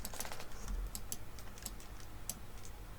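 Keys being pressed on a computer keyboard give several sharp, quiet clicks at irregular intervals, with no talking.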